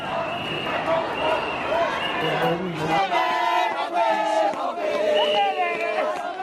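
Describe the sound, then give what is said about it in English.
Protesters in the city of Tshwane near Pretoria, South Africa, form a loud crowd. Many voices shout and chant together, steady and dense throughout. “This is the sound of protesters in the city of Tshwane near Pretoria.”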